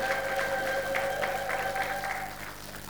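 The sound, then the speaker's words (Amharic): Applause and high trilling ululation from a church audience giving glory to God. The sustained wavering cries ride over pulsing claps and fade toward the end. “ለእግዚአብሔር ክብር እልልታ ጭብጨባ”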